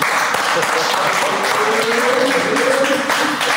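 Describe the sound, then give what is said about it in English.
Applause for a guest on a talk show: a dense, continuous patter of clapping at an even loudness throughout, with a voice faintly underneath. “So we need to give it up for him for that.”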